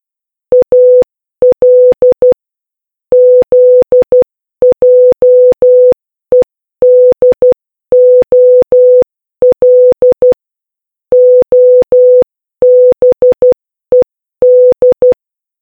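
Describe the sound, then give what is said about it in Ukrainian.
Morse code telegraph signals sound as a loud, steady mid-pitched electronic tone keyed on and off in quick groups of short and long beeps, with brief gaps between letters and longer pauses between words, heard alone. “Треба було витиснути короткі і довгі сигнали, які дротами бігли до іншого телеграфіста, який їх розшифровував,”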